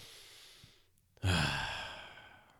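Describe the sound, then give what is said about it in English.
A deep, intentional belly breath: a long, soft inhale fades out, then after a brief pause a strong, breathy exhale bursts out and slowly tapers away. “I just did like a deep, you know, belly breath.”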